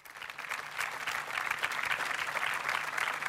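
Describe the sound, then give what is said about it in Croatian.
Audience applause at a festival event in Zadar rises from a quiet start into full, dense clapping that carries on evenly for about three seconds, with no speech over it. “Molim vas, jedan veliki pljesak za Pavla Dešpalja.”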